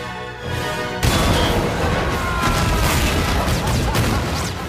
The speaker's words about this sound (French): Voilà, scène mythique où V fait exploser le palais de justice.